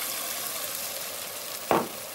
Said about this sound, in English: And into this hot mixture of onions and spices, I'm going to put in that spice paste that I made earlier with the almonds in it. So here in goes this delicious spice paste with almonds, all of it.